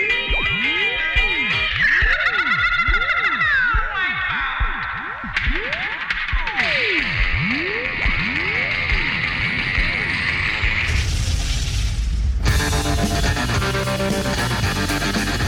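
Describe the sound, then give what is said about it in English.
Electronic time-travel effect for a time machine's flux capacitor, made of many swooping tones that rise and fall in overlapping arcs over a warbling drone, ending in a loud burst of dense, noisy sound. “time to board the Catchin' a Wave time machine. This is what makes time travel possible, the flux capacitor.”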